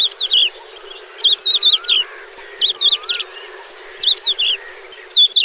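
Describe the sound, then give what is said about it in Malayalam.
Horned lark song, a varied melody that seems to mix many birds' songs, comes in five repeated bursts of high, twisting whistled phrases with short pauses between them, heard alone without voices. “സൂക്ഷ്മമായി ശ്രദ്ധിച്ചാൽ ഒരു പക്ഷിയുടെ പാട്ടായി മാത്രം ഇതിനെ നിർവചിക്കാനാവില്ല. പല പക്ഷികളുടെ പാട്ടുകൾ കൂട്ടിക്കലർത്തി വാനമ്പാടി പാടുകയാണെന്നേ തോന്നുകയുള്ളൂ.”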